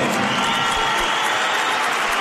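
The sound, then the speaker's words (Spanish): A basketball crowd at the Palacio de los Deportes in Lugo whistles and gives some scattered applause, producing a steady, dense roar of crowd noise throughout. “División de opiniones, ¿no? Pitos. Como los toros, ¿no? Sí. O ha habido algunos aplausos, pero también ha habido pitos.”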